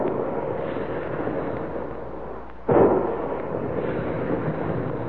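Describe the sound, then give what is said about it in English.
A sound effect of big guns firing: a steady, dull rumble runs throughout, broken midway by one heavy, sharp boom before the rumbling resumes at a similar level. “Big guns, hear them?”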